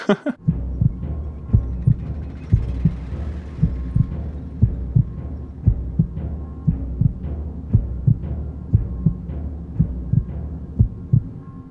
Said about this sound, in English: what you just heard was the sound of the void, some timpanis, and a heartbeat